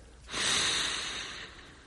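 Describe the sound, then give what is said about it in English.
A single deep inhale through the nose pressed into hair, a long airy, hissing breath that swells quickly and then tapers over more than a second, alone without talk. “I press my nose into your hair and inhale deeply.”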